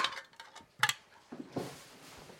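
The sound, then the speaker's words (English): A clump of wet cat food is mashed up in a bowl with a utensil, giving a few soft clinks and scrapes followed by a quieter, moist squishing stretch. “this is like, comes out in a big clump. Just want to smush it up a little bit so they can eat it.”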